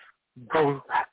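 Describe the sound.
A puppy barks in a few short, sharp, yappy bursts in quick succession, loud and clear with brief gaps between them.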